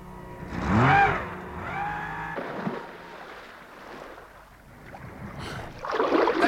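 A boat capsizing in water: a churning wash of water noise with drawn-out tonal groans early on, easing off mid-clip, then a louder, bright splashing surge at the end.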